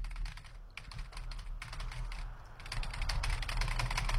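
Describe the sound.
Quick, light keystrokes on a computer keyboard form a steady stream of clicks with brief pauses, faint and alone over a low hum.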